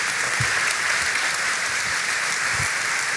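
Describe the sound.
Audience applause in church welcoming a guest speaker, a steady, unbroken wash of clapping at moderate loudness, with a few duller low thumps mixed in.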